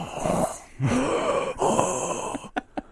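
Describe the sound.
A voice imitates loud, heavy mouth breathing of a greasy, sweaty person: a few long, ragged, noisy breaths, then a couple of short, sharp gasps at the end.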